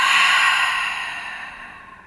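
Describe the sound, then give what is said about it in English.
One deep breath let out through the mouth during a calming grounding exercise. The airy exhale is moderately soft and fades gradually over about two seconds, with no voices. “And then take a deep breath in through your nose. Exhale through your mouth just to ground yourself.”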